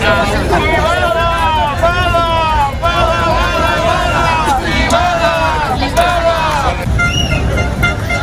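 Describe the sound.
Many car horns honk over continuous crowd babble and traffic noise as protesters block the Ronda de Dalt ring road in Barcelona, with voices calling out throughout.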